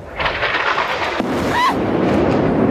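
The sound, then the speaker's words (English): A bomb strikes a building during an airstrike and the building collapses, a deep roaring rumble that swells suddenly and keeps rolling on. “reacting to a building being nailed by a bomb and falling”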